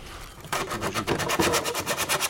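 Small precision prosthetist's tools sand and scrape gilded, varnished wood furniture in fine detail work. Many quick, evenly spaced rasping strokes repeat in a steady rhythm, fairly loud and alone, with no voices.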